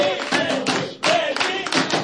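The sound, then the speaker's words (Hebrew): Audience clapping at the close of a live show, a dense, steady wash of applause that dips briefly near the middle and then swells again. “הרבה כפיים למנדי אור, שנתן לנו את האור.”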